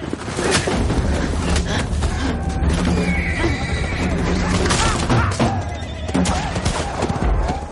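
A horse gallops at full speed across the steppe, chased by dozens of riders, neighing loudly over a dense, continuous pounding of hooves, with crashes and heavy thuds mixed into the loud, unbroken commotion.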